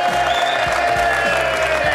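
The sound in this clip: A studio audience applauds and cheers to welcome guests Ian Moore and Omid Djalili, a loud, continuous sheet of clapping with crowd noise that holds steady throughout.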